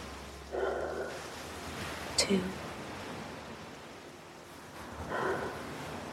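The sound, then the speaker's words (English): Soft, slow deep breaths taken during a guided breathing exercise, faint and hushed, with a couple of long airy breaths separated by quiet pauses. “Now, as we do each episode, let's take 3 deep breaths.”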